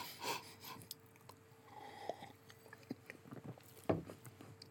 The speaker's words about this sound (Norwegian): Vi tar først smak og gir karakter fra 1 til 10, og så tar vi designet etterpå. Altså, dette var jo da med en gassisk oppskrift.